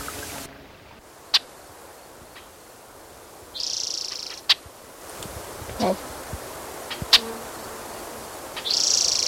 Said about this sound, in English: There's blackbirds.